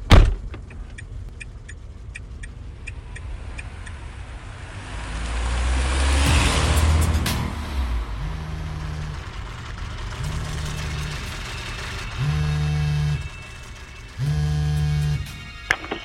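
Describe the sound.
A car starts and drives off: a sharp thud opens, then the engine swells and fades, followed by several steady humming bursts at regular intervals.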